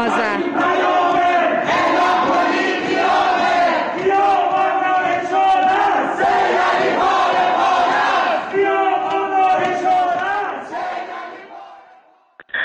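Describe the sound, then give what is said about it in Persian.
Protesters chant slogans together at night in Ekbatan, Tehran. Many voices sing out loud and sustained in unison, holding steady throughout before fading at the end. “اما شب گذشته ما شاهد یک سری اعتراضات در شهرک اکباتان تهران بودیم. مردم شعارهایی سر دادن که بد نیست صدای اونها رو هم بشنویم.”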